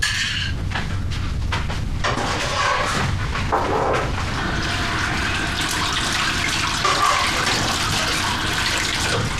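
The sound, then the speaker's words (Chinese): Tap water runs in a steady, loud rushing stream while hands are washed beneath it, with a few knocks and clatters over the first few seconds and no voices. “你去洗手，洗手吃饭，快。”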